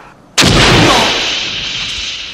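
A truck explodes in a film: one sudden, very loud blast that swells into a long, roaring rumble and slowly fades, with no talk.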